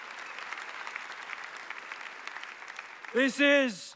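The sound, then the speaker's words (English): Audience applause at a church service, thanking the volunteers: dense, even clapping from many hands for about three seconds, then a voice starts talking as it fades. “Hey, can we just put our hands together and just thank all of these guys?”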